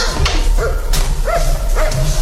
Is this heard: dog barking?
yes